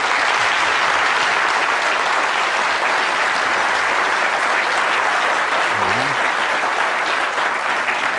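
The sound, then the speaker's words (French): A crowd applauds warmly to welcome a speaker at a French-language event, with loud, continuous clapping that stays dense and even from start to finish. “Je vous prie d'accueillir chaleureusement M. Jean-Claude Germain.”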